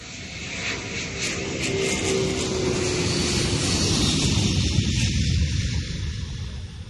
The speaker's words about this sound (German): Okay, dann bitte alle einsteigen und anschnallen. Wir heben ab.